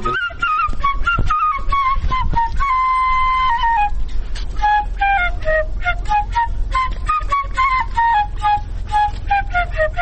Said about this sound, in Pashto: مونږ خو له ډېر لرې د تاسې د شپېلۍ په غږ پسې راغلو